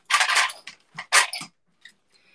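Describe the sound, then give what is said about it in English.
Crystals clatter as a dog knocks them over: a cluster of bright, loud clinking bursts, then a few faint scattered ticks as the pieces settle. “I'm cleaning up all my crystals and my dog just knocked them all over.”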